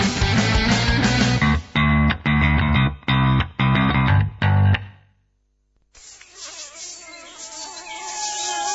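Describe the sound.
Mosquito buzzing in an insect repellent advert: a loud insect whine. It comes first with bursts of buzzy, distorted stabs, then a short silence, then a steady whining drone that grows slightly louder toward the end.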